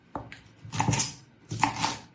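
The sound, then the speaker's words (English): A knife slicing peppers for air fryer fajitas, quiet and clean: a sharp tap on the board, then two longer crunchy slicing strokes with a short gap between them, no talking. “So then once they're all sliced and off the core, you can nicely slice them ready.”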